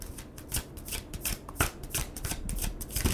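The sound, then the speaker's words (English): A tarot card deck is shuffled with a quick, uneven run of many soft riffling snaps and flutters. The sound is fairly faint and heard alone. “I've got my tarot deck here with me in the studio, and each show I'm going to pull a card for our listeners.”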